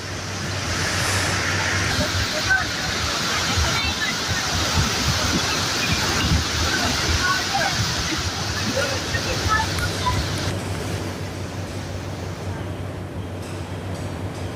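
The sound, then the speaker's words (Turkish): Floodwater roars out of an overflowing river after heavy rain, a dense, steady rushing wash that holds at an even, loud level throughout with no clear breaks. “Şiddetli yağış Samandağ ilçesinde sele dönüştü. İlçeden geçen Hıdır Bey nehri taştı. Bölgede su baskınları yaşandı.”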